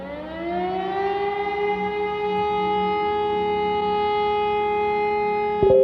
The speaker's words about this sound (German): Habe ich alle Sirenen verschlafen? Ach nein, jetzt heult sie wieder.